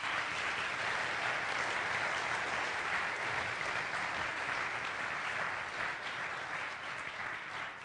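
Audience applause welcoming a man onto the stage at a Sunday church service, with continuous, dense clapping at an even level that tapers slightly at the close.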